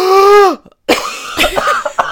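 A person coughs in a few rough, noisy bursts. Before them come a sustained vocal tone that slides downward in pitch and a brief silence.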